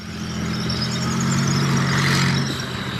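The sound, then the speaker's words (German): Engine drone of German army tanks driving through sparsely wooded, thinly snow-covered terrain in Norway during a NATO exercise: a loud, steady rumble with a low humming tone that swells slightly midway and eases toward the end. “Hoch oben in Norwegen fahren deutsche Panzer durch ein kaum bewaldetes Gebiet.”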